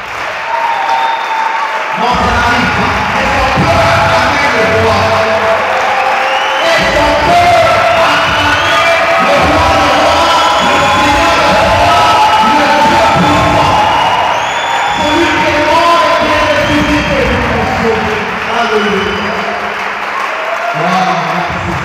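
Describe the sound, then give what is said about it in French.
Congregation in a church cheering and acclaiming the king, loud sustained roar of whoops, shouts and applause that carries on for about twenty seconds. “Est-ce qu'on peut acclamer le roi Alors, j'aimerais que vous puissiez répondre à ça. Est-ce qu'on peut acclamer le roi”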